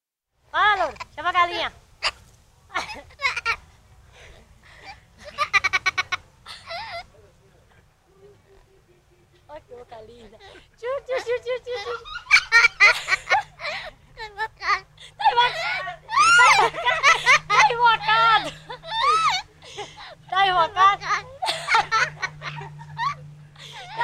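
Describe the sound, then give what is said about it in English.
Laughter from a girl and a parrot: many bright, high-pitched giggling bursts in irregular runs. They are sparse at first and then grow louder and denser over a steady low hum. “I want to actually play a sound here that I know really resonated with you. It's the sound of a parrot and a girl laughing”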